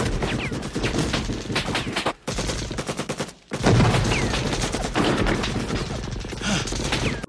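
Rapid gunfire from a guerrilla fighter in a film scene rattles in dense, machine-gun-like bursts, loud and sustained, broken by two brief pauses before the firing resumes.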